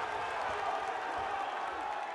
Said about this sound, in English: Again, the crowd goes absolutely bananas, thinking their man will claw a victory from the jaws of defeat.